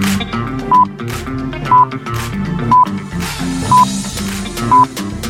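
Telephone keypad tones beep five times, short, loud and evenly spaced about a second apart, over a musical backing during a phone-in quiz game.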